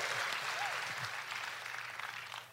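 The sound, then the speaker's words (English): An audience applauds in a brief, steady burst of clapping that tapers off slightly toward the end. “Well deserved. Give her a round of applause.”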